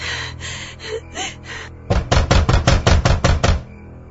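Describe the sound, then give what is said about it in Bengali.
Someone bangs hard on a door at night. A quick run of heavy, hollow thuds comes in close succession after a softer, quieter opening stretch. “এত রাইতে কি দরজায় ধাক্কা দে?”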